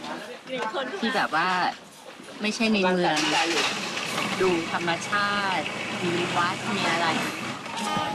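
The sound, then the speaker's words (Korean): A boat engine drones at a floating market in Bangkok, a low steady hum running beneath continuous talking. “아내와 함께 배에 올랐습니다. 방콕 안에도 이렇게 배를 타고 관광할 수 있는 수상시장이 있어요.”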